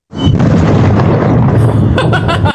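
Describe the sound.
A meteor breaking up in the atmosphere gives one loud, deep boom that starts suddenly and rumbles on evenly for about two seconds before cutting off.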